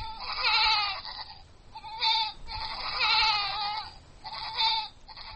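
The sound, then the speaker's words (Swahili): Goats bleating in the village of Aramba near a refugee camp while their owner cleans them: a few wavering, nasal bleats with short pauses between them, fairly faint and with no talk. “Jenabu Jani anasafisha mbuzi wake katika kijiji cha Aramba kilicho kilomita 6 kutoka kwenye kambi ya wakimbizi.”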